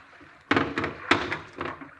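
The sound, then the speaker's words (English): A gun tossed down onto the floor of a saloon lands with a dull thunk, followed by a few more knocks as it settles. No voices are heard. “Stop there. Toss the gun.”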